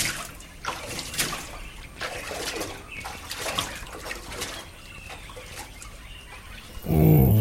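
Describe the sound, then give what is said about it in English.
Water splashes and sloshes irregularly as someone takes a long early-morning swim and bath, a steady wash of watery movement with scattered louder splashes. “So very, very early, every morning, he would take a long swim to fully exercise his body.”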